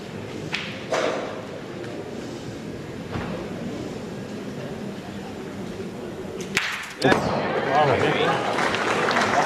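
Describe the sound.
Pétanque boule striking another boule in a carreau shot: a sharp, bright clack after a few softer knocks, over crowd noise, with louder voices rising right after the impact.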